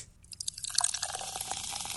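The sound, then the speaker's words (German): Someone jumps into water on a hot day. A rushing splash builds quickly, then gives way to steady churning and bubbling water. “Ein Sprung ins Wasser.”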